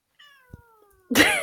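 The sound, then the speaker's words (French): A cat on its owner's lap meows, first a soft, drawn-out tone that slowly slides downward, then a sudden, much louder and harsher meow at the end. “vous ne voyez pas, mais elle a sa chatte sur ses genoux”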